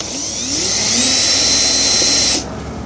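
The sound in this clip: Power screwdriver whirs while removing screws from the light housing of a Honda during a halogen-to-LED light upgrade, one steady high whine lasting about a second and a half before cutting off.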